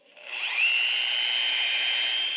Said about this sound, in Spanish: ¿Sabes qué ruido es ese? ¡Taladro! ¡Mamá está perforando una pared!